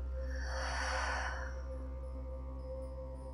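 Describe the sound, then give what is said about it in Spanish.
A deep exhale through the mouth: one soft, breathy rush of air lasting about a second, over a steady low background hum. “Separa tus labios y suelta todo el aire por tu boca.”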